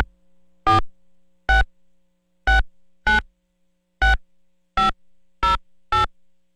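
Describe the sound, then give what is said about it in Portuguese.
A telephone number is dialed as eight short, bright keypad beeps in an uneven rhythm, with near silence between them. “Ah, deixa eu ligar. Pera aí, só um minutinho.”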